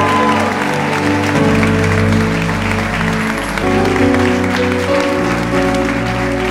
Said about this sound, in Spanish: A ver, alguien dele un aplauso con alegría al Señor.